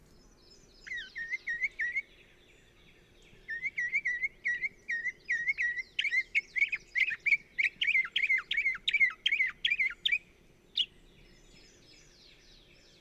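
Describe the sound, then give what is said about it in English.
Thrush song: a bird sings a long run of rapid, repeated bright chirping notes, pausing briefly near the start before continuing in a dense, even sequence, with one last isolated note. “The emotions excited by the songs of these thrushes belong to a higher order, springing as they do from our deepest sense of beauty and harmony of the world.”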